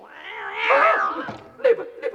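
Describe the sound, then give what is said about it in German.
A cat gives a long, wavering meow that rises and then falls, followed by a shorter, sharper meow and a brief trailing call, moderately loud with no talk. “Liebe Katze, es ist für dich gar kein Spaß, wenn du reinkommst. Bitte, geh weg.”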